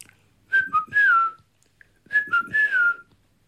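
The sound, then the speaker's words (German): A man whistles as a signal in two short, clear phrases, each made of a few quick notes that end on a longer, gliding tone falling in pitch, with a pause between the phrases. “Dann hörte ich, wie er zurückkam. Er pfiff für mich.”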